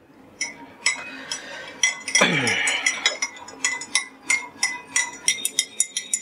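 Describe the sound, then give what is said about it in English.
A spoon stirring sugar into black tea clinks against the cup in many quick, bright metallic taps, mostly in a steady rhythm, with a brief stretch of continuous swirling partway through. “Should I use the same spoon to stir?”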